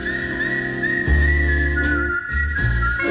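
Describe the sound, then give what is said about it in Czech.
Someone whistles in the dark, holding one steady high note throughout while low rumbling sounds rise and fall underneath. “Někdo si ve tmě hvízdá a já chci spát.”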